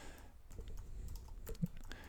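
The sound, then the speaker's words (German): Typing on a computer keyboard produces many faint, irregular keystroke clicks over a low, steady background hum, with no voices. “So, ich tippe.”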